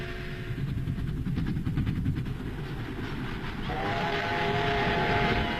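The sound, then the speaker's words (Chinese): A train heading to Beiping rolls along with a dense low rumble and rhythmic rattling of its carriages. Partway through, a sustained whistle tone joins in and holds to the end. “他登上了返回北平的火车。”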